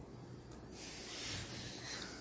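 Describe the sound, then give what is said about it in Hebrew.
A long airy slurp as tea is sipped, a steady breathy hiss that swells slightly in the middle and fades, with no speech. “הנה, עכשיו אני רוצה לשתות את התה.”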